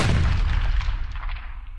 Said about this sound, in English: Holy cow, they all just exploded.